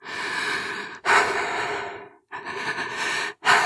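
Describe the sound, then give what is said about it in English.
Deep breaths drawn and released by a woman after crying, several long, loud, breathy rushes of air in succession with short pauses between them and no talk. “She wiped the tears with her bare arms and then took 2 deep breaths.”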